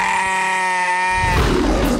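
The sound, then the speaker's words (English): A sheep from a cared-for flock gives one drawn-out bleat: a steady, wavering, tonal cry that breaks into a rough, breathy, noisy tail near the end. “taking care of the kindest creatures on earth. Sheep. I want you to meet my flock.”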